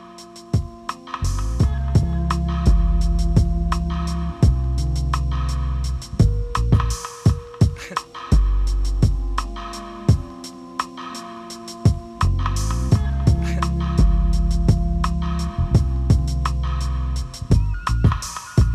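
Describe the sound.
A hip hop track plays, with heavy booming bass, punchy drum hits in a repeating groove and layered tonal backing, staying loud throughout.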